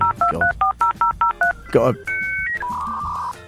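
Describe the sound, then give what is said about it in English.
A dial-up internet modem starts connecting with a rapid run of touch-tone beeps, then a few steady, higher electronic tones held one after another. “It's quite a slow system. Dial up. It's so good. It's the vinyl of the internet.”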